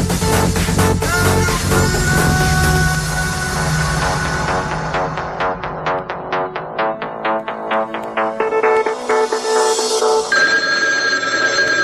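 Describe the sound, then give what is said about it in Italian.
A mobile phone rings with a melodic electronic ringtone: bright, repeated tonal notes in a quick pattern, loud and alone, the tune changing near the end. “Suona il cellulare.”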